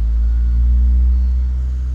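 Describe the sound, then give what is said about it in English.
Heavy asphalt truck engine rumbling as it backs up toward a paving machine, a deep, steady low-pitched drone that holds nearly constant throughout. “this other truck that's right in front of my driveway, this truck will now back up and back up all the way to the paving machine”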